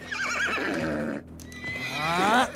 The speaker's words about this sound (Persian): این اسب مال منه بچه جون.